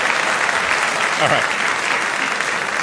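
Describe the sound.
At a debate on dollar policy, an audience applauds to welcome a speaker with loud, continuous clapping that stays even from start to finish.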